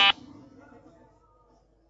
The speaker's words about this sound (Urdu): دیکھنا ہوگا کہ کس نے پہلے بزر بجایا ہے